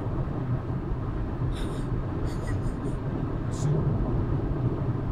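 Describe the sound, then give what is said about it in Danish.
A car drives at full throttle along a road at about 104 to 106 km/h. Engine and road noise form a continuous low roar throughout, with brief high chirps partway through. “Er det fuld pedal? 104. Ja. 106.”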